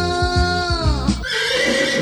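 A horse gives one loud, bright whinny with stacked harmonics that waver and fall slightly in pitch before breaking off into a rougher, noisy tail.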